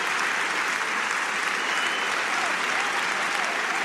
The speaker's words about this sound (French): L'ovation du public